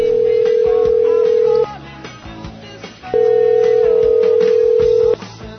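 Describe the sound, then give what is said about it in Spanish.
A steady telephone dial tone sounds before a call is placed, in two long, loud, unbroken stretches of the same pitch separated by a short pause filled with faint background noise. “Tono, ya tenemos tono. Vamos a la llamada”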